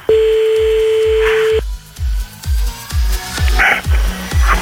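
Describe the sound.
Telephone dial tone as a call is placed: a steady tone holds for about a second and a half, then stops, over a regular low thumping pulse that continues throughout.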